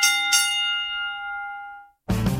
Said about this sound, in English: ring the bell